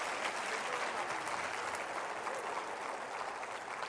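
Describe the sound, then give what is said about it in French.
An audience gives an ovation during a church service, a fairly soft, unbroken stream of many hands clapping that holds steady from start to finish. “Si vous avez faim et soif, donnez un 5 secondes d'ovation, Seigneur, avec moi.”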